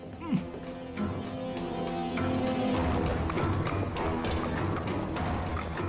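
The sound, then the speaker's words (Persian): Hooves of the doctor's horse-drawn carriage clip-clop in a steady, continuous rhythm, many sharp strikes following one another and staying loud throughout. “خودشه، اون درشکه دکتره.”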